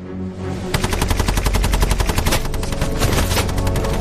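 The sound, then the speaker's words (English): A Bren light machine gun fires a long sustained burst along a hedge line, with rapid, evenly spaced loud cracks in a steady driving rhythm after a brief lead-in. “He places his last Bren gun in an upper window overlooking the position. Lonsdale signals the gunner to sweep the hedge line which conceals the German soldiers.”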